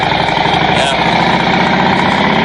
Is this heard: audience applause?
no